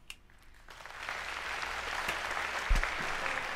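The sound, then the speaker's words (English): Applause fills a debate hall as Joe Biden and Donald Trump walk onto the stage for the final debate. It swells quickly from quiet to a steady, dense roar of clapping that holds to the end. “The audience here in the hall has promised to remain silent. No cheers, boos, or other interruptions, Mm-mm. except right now, as we welcome to the stage former Vice President Joe Biden and President Donald J. Trump.”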